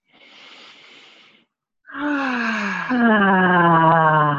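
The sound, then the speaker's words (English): A deep breath drawn in during a guided group breathing exercise, followed after a short pause by a long voiced exhale that becomes a steady, sighing tone. “Let's just take a few nice deep breaths together. Again.”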